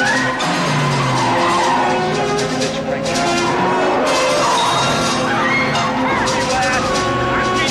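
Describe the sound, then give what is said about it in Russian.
Car tires squeal as vehicles skid through turns in a street chase in a foreign film. The screeching is loud and continuous under dense mixed film sound, with a voice speaking over it. “С заносом и скрипом покрышек входят в повороты.”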